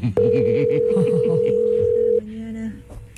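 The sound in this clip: A telephone rings unanswered as a single long, steady, loud tone lasting about two seconds, with voices talking underneath it before it cuts off.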